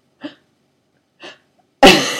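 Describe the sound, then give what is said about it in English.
A person sneezes: two soft, short gasping inhales, then one loud, sharp explosive sneeze with a burst of breathy noise that fades slowly. “So, either sneeze or don't. So I don't, this isn't purposeful, but apparently I am a sneeze drama queen”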